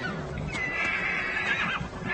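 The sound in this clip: Ponies whinnying at a frozen stream: a drawn-out, high whinny stands out over a steady, noisy background.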